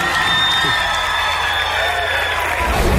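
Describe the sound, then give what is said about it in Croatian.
A concert audience applauds the singer's wife, a steady, dense wash of clapping and crowd noise that holds evenly throughout. “Ajmo pljesak za Katarinu.”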